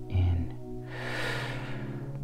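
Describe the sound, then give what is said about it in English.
One last long, deep breath, a soft airy rush that swells and holds steadily for over a second over a sustained low hum. “And I want us to take one last long, deep breath.”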